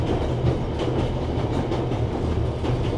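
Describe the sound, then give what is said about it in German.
A train rumbles along the rails in a steady low roar, with faint repeated clicks from the wheels passing over track joints. The sound is continuous and fairly loud, with no voices. “Nun saß er wieder im Zug und fuhr zurück nach Berlin.”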